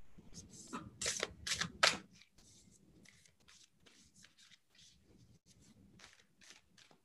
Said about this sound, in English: I have these beautiful cards. I'll give them one more shuffle.